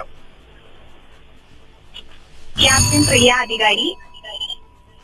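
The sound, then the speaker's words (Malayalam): A quiz timer alarm goes off as a loud warbling electronic tone that lasts just over a second amid talk, then fades to quieter beeps. “ആദ്യം അഞ്ജന ഉത്തരം പറഞ്ഞു, അല്ലെങ്കിൽ alarm പോയി, ഏതാണ്ടായത്? രണ്ടും same time ആണോ?”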